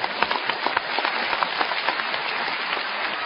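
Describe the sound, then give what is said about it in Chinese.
A live stage-show audience applauds with loud, dense clapping, many crisp individual claps popping out of a steady roar of hands that carries on throughout. “谢谢大家， 值得鼓这个掌”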